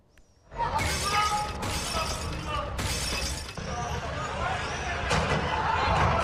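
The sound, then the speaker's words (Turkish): A shop window's glass is smashed with an axe in Sivas: several loud, bright shattering crashes follow one another, with rattling and tinkling debris in between. “Sivas'ta bir kişi husumetli olduğu esnafın dükkanının camını kırdı.”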